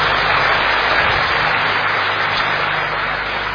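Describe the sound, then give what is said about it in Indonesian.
Enthusiastic audience applause at a talk: a dense, steady wash of clapping that stays loud throughout and eases slightly toward the end. “tepuk tangan meriah”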